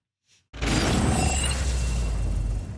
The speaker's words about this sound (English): the audio is getting a bit hard to hear now against the noise of the rotor blades of Marine One